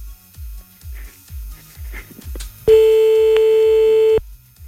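A telephone ringback tone sounds on an unanswered call: one loud, steady, mid-pitched tone held for about a second and a half, preceded by a low, regular pulsing in the background.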